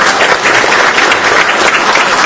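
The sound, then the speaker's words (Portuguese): Audience applause during a tribute to a former athlete: dense, steady clapping that runs evenly through the whole stretch, loud, with no voices standing out. “Uma salva de palmas para o nosso querido Raul.”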